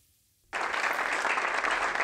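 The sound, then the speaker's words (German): Applause at a parliamentary party group meeting marking a retiring finance minister's last session. It bursts in abruptly after a brief hush and carries on as a dense, even clatter of many hands. “Großer Applaus und Schulterklopfen.”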